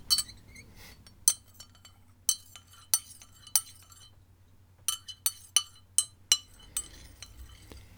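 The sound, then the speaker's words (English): A spoon stirs Lemsip powder into a drink in a cup, making many light, bright clinks against the cup in an uneven rhythm over a low, steady hum. “into the cup. And then stir the powder.”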